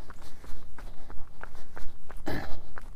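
Footfalls of a person running on a road form a brisk, even rhythm of many soft thuds over steady background noise. One louder, scuffing step lands near the end.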